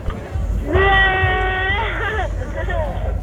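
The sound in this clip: A person imitates a sheep bleating with one long, wavering, nasal baa that trembles in pitch for over a second, then fades into quieter background noise.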